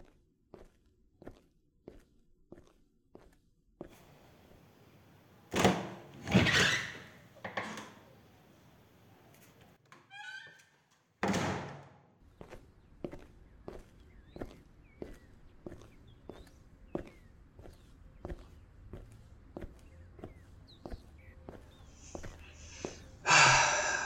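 Footsteps of a person heading outside for fresh air: many steady, evenly spaced steps, broken by a few louder knocks and thumps midway, fairly quiet and with no talk.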